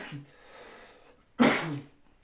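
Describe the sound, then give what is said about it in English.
Coughing after smoking cannabis: a short cough, a faint raspy breath, then a louder, harsher cough that trails off, all fairly quiet overall. “that is a cannabis cough, not a corona cough.”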